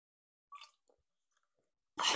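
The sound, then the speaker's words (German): Soft mouth sounds of someone taking a sip of a drink: a brief wet slurp, a faint swallow, then a louder breathy burst at the end. “Oh, warte, ich muss kurz einen Schluck trinken.”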